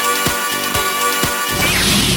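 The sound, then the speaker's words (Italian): Lightsaber strikes clash in three sharp, evenly spaced hits over a steady humming tone, followed by a buzzing sweep toward the end. “Adesso ti colpirò con la mia spada laser. Io adesso ti rispondo così.”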